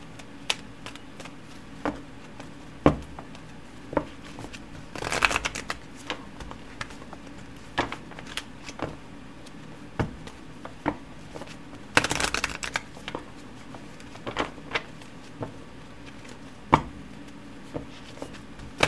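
Tarot cards are shuffled by hand, making soft papery slides and many sharp light taps over a quiet background, with two louder riffling bursts partway through.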